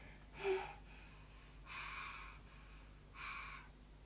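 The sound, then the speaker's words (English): Deep breaths drawn during a medical chest examination: three soft, airy inhalations spaced a little over a second apart, faint against a quiet background. “Breathe in now.”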